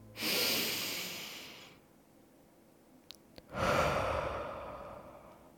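Deep breaths during a relaxing meditation exercise: two long, loud, airy breaths separated by a quiet pause broken by a couple of small clicks.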